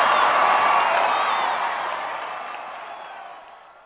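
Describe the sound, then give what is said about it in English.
Audience ovation with cheering and whoops, a loud, muffled wash of many voices that fades steadily over about four seconds. “They were wonderful. First time ovation for me.”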